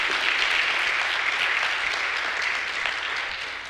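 Applause from a church audience welcoming the preacher to the platform on a Sunday morning, dense and sustained clapping from many people that eases slightly toward the end.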